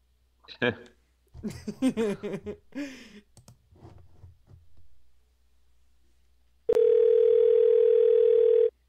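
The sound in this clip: A telephone dial tone sounds while calling a suspected phone scammer back. It is a click, then a loud, steady, unbroken tone for about two seconds, after a stretch of talking and a quiet pause.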